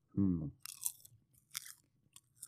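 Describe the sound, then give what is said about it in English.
Popcorn being chewed in a crunchy close-up eating session: a short hummed murmur, then a few crisp, brittle crunches in irregular bursts. “Popcorn ASMR. Yeah, if you didn't want popcorn ASMR, then I'm sorry, but you know, this is the world that we're living in today.”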